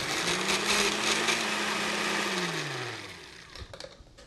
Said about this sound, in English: So we're going to puree.